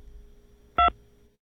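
A single telephone keypad tone follows an automated phone prompt: one short, steady, loud electronic beep, surrounded by near silence with a faint low hum.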